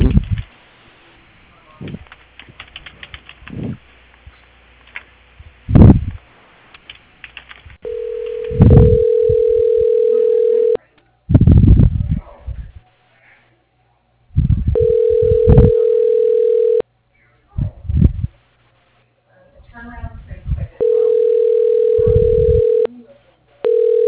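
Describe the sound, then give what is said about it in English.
Ringback tone on a telephone call being transferred to an assistant: three long, steady, buzzing rings separated by pauses, preceded by clicks and line noise. “Okay, I'll transfer you over to his assistant, sir. Hold on, please.”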